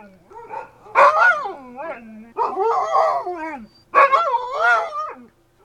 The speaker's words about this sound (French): on avait fermé les portes, et les chiens se mirent à aboyer.